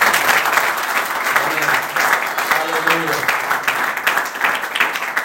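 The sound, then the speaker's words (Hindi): A church audience claps hands to glorify God, a loud sustained patter of clapping with a voice speaking over it. “Come on, give glory to God, ताली बजा के प्रभु की महिमा करो”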